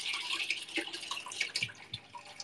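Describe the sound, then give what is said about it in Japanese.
Leftover hot water pours in while soup is being made, a splashy trickle with scattered drips and gurgles, moderately loud and steady throughout. “余ったお湯をつけまして”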